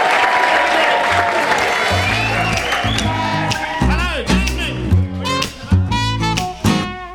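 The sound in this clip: An Edinburgh audience applauds and cheers as the act Johnny and the Baptists is welcomed on stage, with scattered whoops. The applause is loudest at first and then breaks into uneven bursts while a voice comes through.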